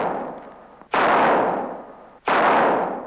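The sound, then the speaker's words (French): Gunshots from a Colt revolver fired from a ridge: two loud, sharp blasts, each trailing off in a long decaying roar, following the fading tail of an earlier shot. “Mais qui c'est qui a tiré sans ma permission? Là-haut, sur la crête, un cavalier noir range son colt.”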